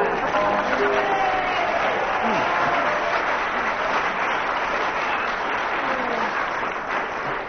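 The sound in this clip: Audience applause fills the whole stretch, a dense, steady wash of clapping that stays loud and even without letting up.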